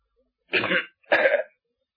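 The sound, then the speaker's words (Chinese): Two short, throaty bursts of a person coughing lightly, like a clearing of the throat, evenly spaced and alone in silence. “有个人轻轻的咳嗽一声，声音洪亮”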